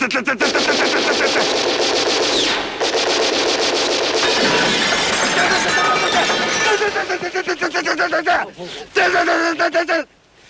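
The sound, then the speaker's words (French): Machine-gun fire in a shootout with police: loud, rapid bursts of repeated shots run almost without a break, then split into shorter bursts with brief gaps near the end, with voices mixed in. “La police est servie de ces maudites machine guns.”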